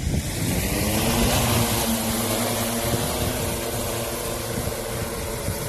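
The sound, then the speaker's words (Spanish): A remotely piloted aircraft flies at night over a wildfire near Estepona, Málaga. Its engine gives a continuous buzzing drone with layered humming tones and no pauses. “Es el sonido de una aeronave pilotada por control remoto que durante toda esta noche ha dado apoyo a los trabajos de extinción.”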